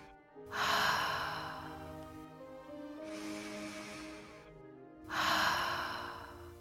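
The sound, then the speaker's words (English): Deep, slow purifying breaths during a guided meditation, three long, soft, breathy swells over a faint steady drone. “Let us take a few more purifying breaths here and clear the air.”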